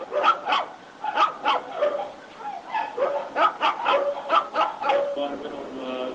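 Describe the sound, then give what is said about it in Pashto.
Dog barks at a non-government animal care centre that mostly houses dogs: a few sharp barks come in repeated bursts, mixed with voices talking. “موږ نوی سپی ترلاسه کړ، ډېر ښه دی، دا سپی ده”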